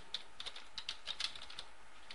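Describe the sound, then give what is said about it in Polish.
Computer keyboard typing as a new user name is entered: a quick, irregular run of soft key clicks, faint and with no voices. “W okienku podajemy nazwę nowego użytkownika, na przykład Jan Kowalski,”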